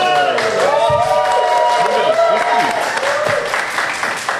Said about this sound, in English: I was genuinely not expecting both the cheers from the audience that's gathered here today.